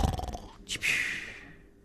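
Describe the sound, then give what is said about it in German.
A sleeping dinosaur snores lightly: a low, rumbling, growl-like breath gives way to one sharp snorting exhale that hisses and slowly fades. “Und der Dino schläft auch, leicht schnarchend.”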